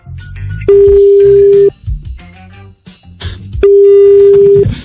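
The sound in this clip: Telephone tones while placing a live double call: two long steady tones, each about a second, separated by a stretch of other mixed sound, both fairly loud.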